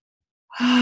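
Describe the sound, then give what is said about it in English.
A single deep breath taken during a guided relaxation exercise, a short breathy rush that starts abruptly after a moment of silence and holds steady. “Okay, another deep breath here.”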